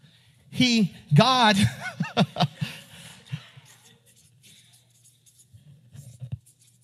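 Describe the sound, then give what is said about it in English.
A marker squeaks and scrapes across a board as someone draws by hand, with a few loud, shrill squeaking strokes early on that give way to quieter, scattered taps and scratches. “Uh-oh, this is where the drawing gets a little shaky.”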